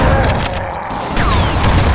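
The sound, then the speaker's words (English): Video-game gunfire rings down a hallway, a loud, dense run of booming, crackling shots and mechanical clatter that barely lets up over two seconds. “Someone's shooting down this hallway.”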